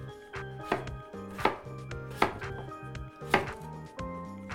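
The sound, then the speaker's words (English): Several crisp knife chops on a cutting board as a potato is sliced into half-inch cubes for a Thai beef curry. The strikes are irregularly spaced, with a steady tonal backdrop beneath them. “And then our potato will slice into about half inch cubes.”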